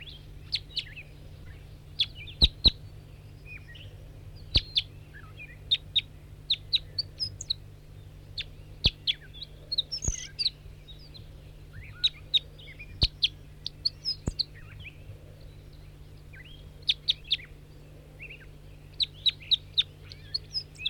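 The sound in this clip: Wild birdsong from a field recording: many short, high chirps and quick twittering phrases come in bursts throughout, over a steady low hum.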